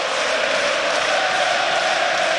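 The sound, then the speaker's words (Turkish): Black-and-white-clad Beşiktaş supporters chant for their Italian coach at a football match, a dense, loud, unbroken crowd roar that holds steady throughout with no pauses. “İtalyano tezahüratları siyah beyazlı taraftarlardan İtalyan teknik adamla alkışlarla karşılık verdi.”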